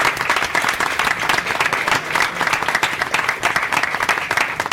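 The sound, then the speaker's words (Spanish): An audience applauds the crew during a live recording of a comedy show, with dense, continuous clapping from many hands, a few sharper individual claps poking through, and an even level throughout. “Un aplauso.”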